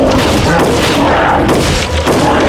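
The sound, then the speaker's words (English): Heavy gunfire in a fight against mutants: a dense, continuous barrage of booming shots with no clear gaps, loud from start to finish. “Doc stepped into the doorway and drew his Lama from beneath his frock coat. I'll help you keep them at bay. Less talking, more shooting.”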